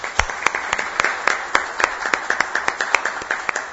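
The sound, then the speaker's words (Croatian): Applause in a municipal council session after a chairman's election: a modest group clapping, with individual claps standing out as distinct sharp hits over a steady bed of clapping that continues throughout. “I ja molim da ga pozdravimo jednim aplauzom i čestitamo.”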